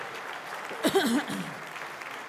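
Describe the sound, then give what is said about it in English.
An audience applauds the new churches forming in Hattiesburg, Mississippi and Salt Lake City, Utah, with steady clapping throughout and a brief voice rising over it partway through. “So give them a big hand.”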